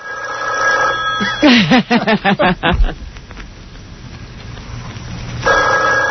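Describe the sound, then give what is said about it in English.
A telephone rings in a fast, warbling trill of rapid pulses, followed by a quieter stretch and the start of another ring at the end. “Phone rings.”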